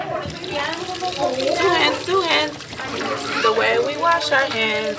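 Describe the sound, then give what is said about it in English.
Water runs from a tap as children wash their hands before lunch at a Head Start preschool in East Oakland. Steady splashing flows under continuous children's voices and chatter. “Wash our hands. Back at the Head Start in East Oakland, the kids are cleaning up for lunch and then a nap.”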